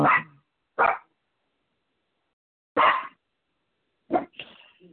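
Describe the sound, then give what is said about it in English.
Excited dogs bark in four sharp bursts separated by uneven pauses, the last bark trailing into a softer, raspy tail. “praying for my dogs, which are very excited right now about this prayer.”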